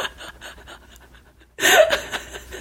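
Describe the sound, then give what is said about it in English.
A person's wheeze, a breathy, raspy laugh-like exhale. It follows a quiet stretch of soft breathing and bursts out loudly midway, continuing in rough, panting gasps. “The wheeze that you just made.”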